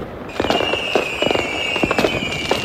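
Fireworks and firecrackers explode in a dense run of sharp bangs and crackling bursts, with a thin steady whistle-like tone running under them and no talk; the noise ties to New Year's Eve in Kraków.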